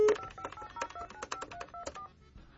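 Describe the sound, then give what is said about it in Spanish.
Telephone keypad tones as a number is redialed, a quick run of rapid two-pitch DTMF beeps, some overlapping, fairly faint and fading out near the end, with no talking. “Sale, estamos marcando de nueva cuenta.”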